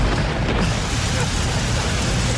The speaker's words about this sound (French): Bon, il pleut.